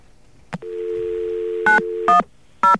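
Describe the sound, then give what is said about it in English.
A telephone handset picks up a line: a click, then a steady two-pitch dial tone, broken by three short, loud touch-tone beeps as a number is dialed out. “Well, first I have to get a line here. And we'll try dialing out.”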